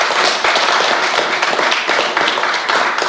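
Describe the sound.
Audience applause for a speaker at a talk, dense, steady clapping from many hands that holds at an even, loud level throughout.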